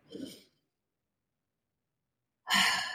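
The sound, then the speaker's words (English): A deep breath during a guided breathing exercise: two airy breath sounds separated by about two seconds of silence, the first softer and the second a louder, brighter rush of air. “And we'll take a deep breath in and out.”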